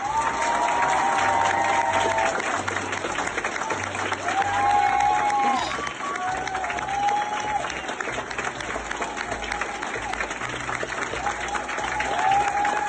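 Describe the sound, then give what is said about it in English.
Applause and cheering from an entire school giving a standing ovation to a boy returning to class after his final round of chemo: dense, steady crowd clapping that fills the whole stretch without a break. “The entire school gave him a standing ovation when he returned. Oh, and we can hear it.”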